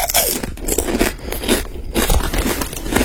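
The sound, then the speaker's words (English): Crunchy potato chips are chewed loudly and continuously, each bite giving a dense, crackling burst in an uneven rhythm. “Chewing crunchy chips, eating crunchy chips. Yeah, it is. It's potato chips.”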